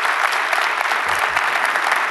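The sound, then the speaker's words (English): Applause from an audience at a live multi-site gathering, a dense, continuous wash of many hands clapping at an even level without a break across the whole stretch. “Would you just shoot that by applause?”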